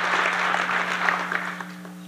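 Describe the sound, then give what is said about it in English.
Tepid applause from a New York audience at a Trump economic speech, a thin, steady clatter of hands that eases slightly toward the end over a low, constant hum. “Trump's boast of exceeding economic expectations got only tepid applause from his New York audience.”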